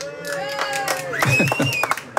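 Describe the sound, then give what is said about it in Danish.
Background crowd noise from the Danish CrossFit championship in Herning, a busy mix of murmuring voices, shouts and scattered claps and thuds under nearby talk. “Og det, man kan høre i baggrunden, det tror jeg er DM i CrossFit.”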